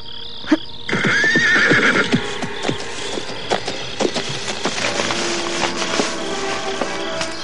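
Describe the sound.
A horse whinnies loudly near a hut late at night, a long, shaky high neigh, then many sharp clopping knocks that fit stamping hooves.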